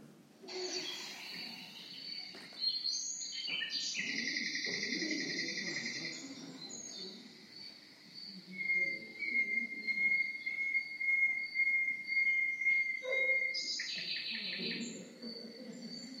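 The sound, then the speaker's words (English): Nightingale song of varied whistled and chirping phrases, including sustained high pure notes and one long steady tone in the second half, heard alone in a quiet setting. “And I have a recording of some nightingale song for you.”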